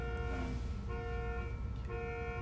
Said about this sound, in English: And that's a car alarm. Yeah, there's a little car alarm going on right outside.